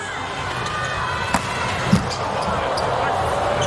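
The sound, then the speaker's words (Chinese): A volleyball serve struck during a Slovenia national team match: two sharp, brief thumps stand out over a steady, dense crowd murmur, and a commentator's voice runs alongside. “周达轩的发球，”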